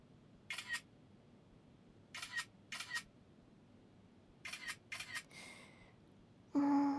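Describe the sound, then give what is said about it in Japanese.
A phone camera on a selfie stick fires its shutter several times in short, crisp, quiet bursts, some close together in pairs, followed by a louder steady tone at the end. “ほら自撮り棒、これでいろんな角度とか距離で撮れるから。これで撮るね。”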